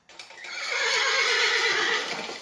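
A horse whinnies in one long, loud, wavering neigh of about two seconds that rises quickly and trails off, with no other sounds around it.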